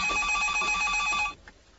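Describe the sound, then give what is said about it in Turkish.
A house telephone rings with a steady, bright, rapidly trilling bell that holds for just over a second, then cuts off abruptly into quiet. “Bak bakalım Raşit Bey mi arıyor? Odur kim arayacak başka?”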